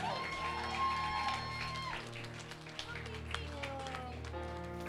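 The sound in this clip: A church audience clapping and cheering to welcome the lead pastor, a steady wash of applause with scattered sharper claps over sustained music tones.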